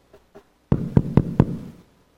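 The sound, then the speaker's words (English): Knocking on a door at a family house: two faint light taps, a short pause, then four firm, evenly spaced dull knocks, with no talk. “Knock on the door.”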